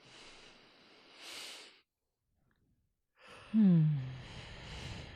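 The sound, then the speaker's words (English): A gentle breath during guided meditation: a soft airy inhale, then a pause of silence, then a longer exhale that carries a low voiced sigh before trailing off into breathy noise. “Taking a little breath into the front of the heart, the back of the heart.”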